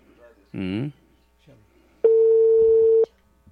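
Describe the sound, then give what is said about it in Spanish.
A single steady ringback tone sounds on a telephone call that goes unanswered. It is a mid-pitched hum lasting about one second, preceded by a brief voice. “Estamos llamando y no nos contesta.”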